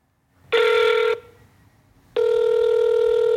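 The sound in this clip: An electronic telephone ring from a woman's phone being called sounds twice: a loud, steady, buzzy tone lasting about half a second, a short gap, then a second identical tone that carries on to the end, with no voices.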